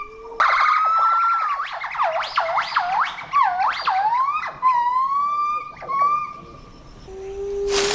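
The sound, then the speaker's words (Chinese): White-cheeked gibbon family song in a morning rainforest: a male leader's loud, swooping whoops rising and falling in pitch, repeated in a long sequence, with further overlapping calls answering from family members. “这是白家长臂猿家庭雄性首领的歌声。他的呼唤很快就得到了每位家庭成员的响应。”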